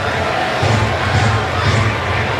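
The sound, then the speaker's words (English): Crowd cheering at an A's baseball stadium, full of green and gold fans: a broad, steady roar of many voices that holds at a constant level without breaks. “He was, and it was a great response from the crowd.”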